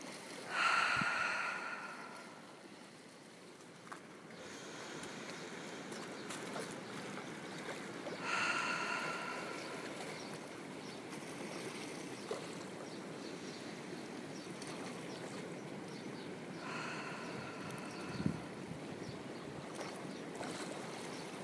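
Gentle ocean waves make a soft, continuous wash of noise that swells slowly every several seconds. The sound is quiet and unhurried, with no voices.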